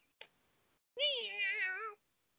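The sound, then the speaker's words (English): A cat gives one long, loud meow with a wavering pitch, sounding clearly in a quiet room after a brief soft click. “Hey, the cat. Cat.”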